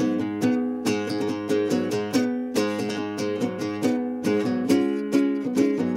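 Riff plucked on a nylon-string acoustic guitar in an alternate tuning, many bright, ringing notes in a steady repeating rhythm, moderately loud and played alone.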